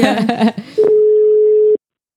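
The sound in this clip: A telephone ringing tone sounds on an outgoing call: after brief talk, a single steady mid-pitched tone holds for about a second, then stops abruptly into silence.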